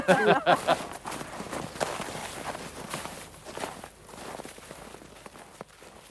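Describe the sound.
Footsteps of people climbing down a path toward a waterfall, one of them carrying a bouzouki. The steps are irregular, quiet and scuffing, and they thin out over a low rustling background.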